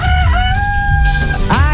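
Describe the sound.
A rooster crows loudly on its own: one long, drawn-out crow, then a shorter rising call near the end.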